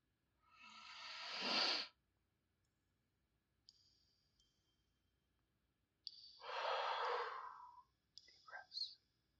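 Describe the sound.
Deep breathing: two long, loud breaths separated by a pause. Brief high-pitched tones sound in between and near the end.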